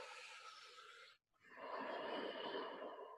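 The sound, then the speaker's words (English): Ujjayi pranayama breathing, two soft, hissing breaths separated by a brief silent pause, the second breath longer and fuller, faint throughout. “Okay, you're on the hook. Pranayama, ujjayi. Go ahead, about 50 pulsations, 50 cycles of breath.”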